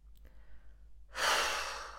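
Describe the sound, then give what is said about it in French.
A slow, breathy exhale like blowing out a candle during a relaxation breathing exercise: a soft rushing breath begins after a quiet moment and gradually fades. “Nous expirons comme si nous voulions éteindre une bougie.”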